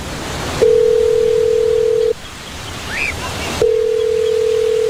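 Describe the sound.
Ringback tone of an outgoing telephone call: two long, steady low-pitched beeps separated by a pause of silence, with faint background hiss throughout.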